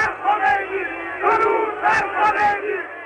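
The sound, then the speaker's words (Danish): A crowd welcoming Ayatollah Khomeini at Tehran airport in 1979 shouts and cheers in rising and falling waves of many voices. “Irans ayatollah Khomeini vendte hjem fra eksil i Frankrig i 1979. Her bydes han velkommen i Teherans lufthavn.”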